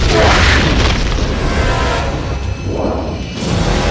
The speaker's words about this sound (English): Mitchell launches a second missile, and it hits the stealth.